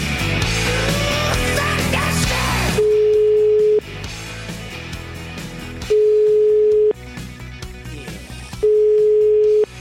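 Telephone ringback tone as a call is placed: three steady, single-pitched beeps, each about a second long, separated by long, even gaps.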